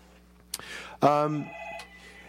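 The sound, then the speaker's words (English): A telephone rings in a radio studio. A faint click comes first, then one short, bright electronic ring tone bursts out and quickly fades. “when we're talking, we can't answer the phone because we're talking on the radio. You can just turn down the ringer on that.”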